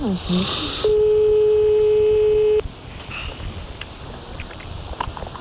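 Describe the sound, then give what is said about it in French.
Telephone tones sound as a call is dialed: brief electronic chirps, then a single loud, steady tone held for nearly two seconds before cutting off into quieter background noise. “On appelle donc Monsieur Simbo pour les marabouts.”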